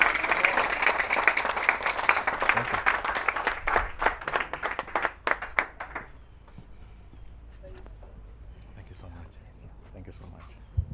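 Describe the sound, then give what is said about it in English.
Applause at an annual conference session welcomes a pastor to the platform: dense clapping for about six seconds, then fading to a quiet murmur. “Can you welcome to the platform Pastor Israel Phiri? Come on, you can give him a big hand.”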